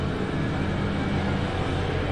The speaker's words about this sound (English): Excuse me, there's a truck going by.